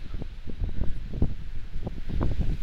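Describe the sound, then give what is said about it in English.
Wind blows hard across the microphone, a constant low, rumbling buffet with rough surges and gusts throughout, with no voices. “that this wind is distracting.”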